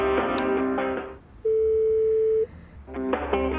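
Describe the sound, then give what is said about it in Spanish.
Telephone call tones while dialing a mobile number: a single steady mid-pitched tone of about a second sits between brief bursts of other tonal sounds, with a quiet gap before the tone. “Creo que no nos reconocerá por el número, vamos a ver. Buzón Movistar.”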